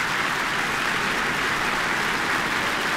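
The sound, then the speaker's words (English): Orchestra members applaud a violin soloist after a concert performance: dense, steady clapping that holds at an even loudness from start to finish. “the orchestra applauding him now too”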